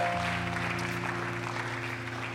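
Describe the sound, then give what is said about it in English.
A church audience claps for visiting guests during a worship service, soft, even clapping that holds steady over a sustained, droning chord. “Why don't we give all of our guests a hand clap today?”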